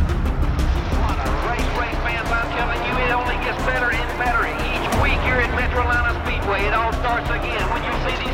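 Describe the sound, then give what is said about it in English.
Race cars roar onto the track at the green flag, coming out of turn four, a loud, dense, continuous engine drone with rasping overtones that holds steady throughout. “The green flag up. Out of turn number 4. We are racing.”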